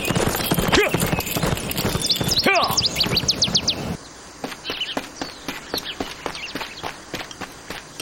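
Hooves of a horse ridden by a lone American soldier clip-clop at a steady pace, with bright bird chirps and tweets over the first half.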